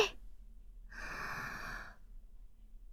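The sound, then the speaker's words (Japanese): A deep breath drawn in during a guided breathing exercise: about a second of soft, airy rushing noise heard alone, following a short faint sound at the very start. “吐いて、吸って、吐いて。最後の1回、大きく吸って、”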